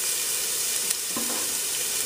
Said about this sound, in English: So I'm going to go ahead and put that in our oil, and that's exactly how it's supposed to sizzle.